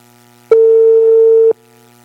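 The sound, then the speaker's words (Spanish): A telephone tone sounds during a call: a single steady mid-pitched beep lasting about one second, loud and clean, starting and stopping abruptly with silence on either side. “Estamos llamando a los comerciantes ahora. ¿Aló? ¿Aló?”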